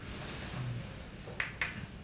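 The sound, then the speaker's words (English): A spoon stirring espresso in a cup gives two quick, light clinks close together near the end, faint over a low steady background. “I'm going to dive straight into the espresso. So give that a quick stir.”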